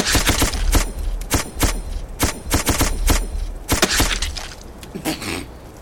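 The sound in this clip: Shotgun fire in a video game: many sharp, loud blasts in quick, irregular bursts that continue across the whole span, some clustered closely together.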